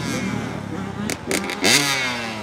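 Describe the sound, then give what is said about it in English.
Dirt bike engines buzzing as students take laps around a parking lot during a riding class: a steady, droning, resonant whine, with one engine's pitch climbing sharply as it revs near the end. “Class continues with the resonating buzz of dirt bikes that does not throttle back.”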